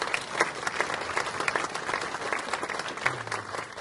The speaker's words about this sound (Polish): Wielkie, wielkie brawa, panie profesorze.